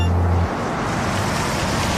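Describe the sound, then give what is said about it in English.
A car slows down as it passes a house with a well-kept lawn: a low hum fades out after half a second, giving way to a steady rushing whoosh that carries on to the end. “That's the third car that slowed down today.”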